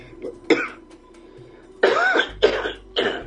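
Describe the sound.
Rough, throaty coughing: one short cough, then after a pause three louder, longer hacking bursts in quick succession, with no talking.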